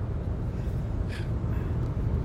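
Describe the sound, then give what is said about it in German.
Low, steady rumble of a car interior while driving on the A2 motorway toward Hannover, a loud continuous road and engine drone with no distinct events. “Ich sitze gerade im Auto auf der A2 Richtung Hannover.”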